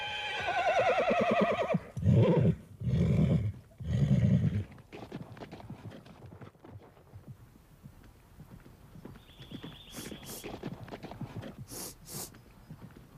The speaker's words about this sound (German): Nanu, da kommen ja Reiter.